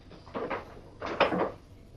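Two crates of bottles set down on a levelled cellar floor: two short, fairly faint clunking bursts, the second slightly longer, separated by a brief pause.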